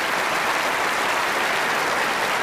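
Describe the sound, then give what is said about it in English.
An audience applauds child performers with a dense, even patter of clapping that runs steadily throughout without pauses. “Give the kids one more round of applause. They're terrific.”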